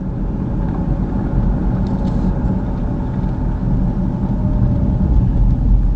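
Car engine rumbling steadily while driving, a dense, continuous low drone that stays loud and even throughout with no talking.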